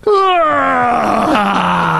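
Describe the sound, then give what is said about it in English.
A voice imitates a child's loud yawn, a single long groaning tone that starts high and slides slowly downward, strong and sustained for about two seconds. “And my son let out the loudest yawn. He just goes,”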